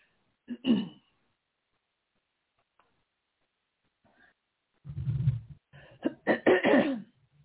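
Coughing and throat clearing from a person about to begin a card reading: one short cough, then after a quiet pause a longer rough cluster of coughs and throat clearing.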